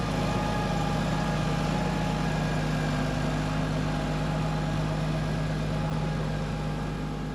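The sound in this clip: A tractor drives back and forth over a silage clamp to compact the crop, its engine giving a steady, continuous low drone with a constant hum and no breaks.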